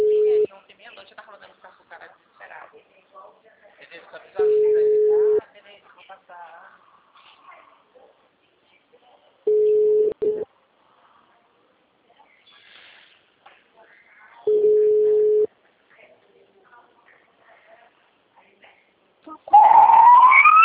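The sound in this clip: Ringback tone of a telephone call being placed, a steady mid-pitched buzz sounding four times at roughly five-second intervals, with people talking quietly between the rings.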